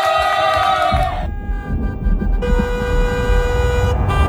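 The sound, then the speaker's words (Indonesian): Car horns honk in a traffic jam on Jalan Zainal Abidin Pagar Alam. Two long, steady horn blasts sound over a constant low rumble of idling traffic. “Tapi gue malah kejebak macet di jalan Zainal Abidin Pagar Alam.”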